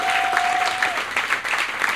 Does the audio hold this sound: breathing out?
no